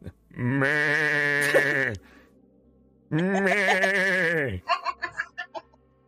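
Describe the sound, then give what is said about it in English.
Irradiated goats in a video game give two long, loud, nasal bleats with a wavering pitch, then a burst of short choppy laughter. “Guys, look, there's some radiated rad goats over there. Look, you can hear them.”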